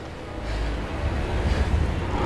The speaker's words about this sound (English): the wind sweeps across the garden